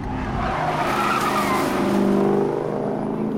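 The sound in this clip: Car tires squealing and skidding as the car takes a sharp left turn on a road. A loud, continuous screech with engine noise lasts the whole time, steady in level.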